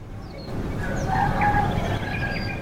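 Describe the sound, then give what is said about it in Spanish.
A rooster crows faintly in the background, a drawn-out call over a steady low rumble, with thin high bird chirps scattered throughout. “tenemos hasta un gallo de fondo.”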